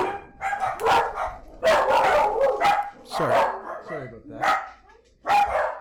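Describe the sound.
Dogs barking in a room: several loud, sharp barks in irregular bursts, with a person talking between and over them.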